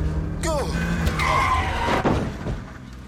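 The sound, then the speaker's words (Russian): Tires skid and squeal as a car swerves close to a pedestrian: a short, sharp screech with falling harmonics near the start, then rough road noise and a rumbling engine that persists to the end. “Машина чуть было не сбивает Виталика, но тот лишь стучит кулаком по крыше и уходит.”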